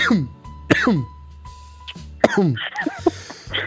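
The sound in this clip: Harsh coughing mixed with throat clearing comes in a few short, rough bursts among voiced sounds, while people talk around it.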